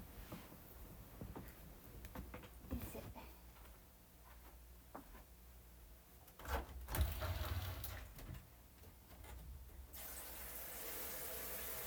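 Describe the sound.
Water runs from a tap as an object is washed under it. A few faint knocks and handling sounds come first, then a steady, quiet stream of running water fills the final seconds.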